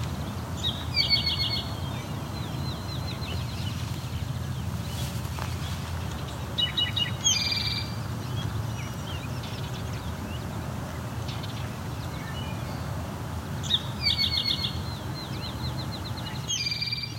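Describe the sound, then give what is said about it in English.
A great crested flycatcher, a large flycatcher, gives a few short, bright calls spaced several seconds apart over a steady, low background hum. “That again is a call from the great crested flycatcher. It's a big bird for a flycatcher.”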